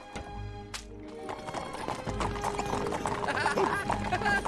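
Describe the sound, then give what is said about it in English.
Hooves of a horse-drawn royal carriage clip-clop in a steady, continuous rhythm that holds fairly loud throughout. “Marie and George riding off together in the royal carriage”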